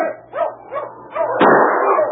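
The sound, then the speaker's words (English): Sled dogs barking, including a loose lead dog: several sharp, mid-pitched barks in quick succession, then a louder, rougher stretch of continuous barking and noise. “Watch out for that lead dog there”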